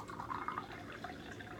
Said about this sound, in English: And we put on the lid, and then we pour in the tea.